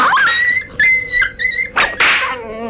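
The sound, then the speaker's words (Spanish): A dog that has just been kicked yelps and whines while biting at a man's leg. It gives several loud, high, sliding cries in close bursts, with the last one drawn out and wavering. “El perro, tras recibir un puntapié del huésped, le mordió en una pierna, desgarrándole la tela. ¡Suelta, bestia!”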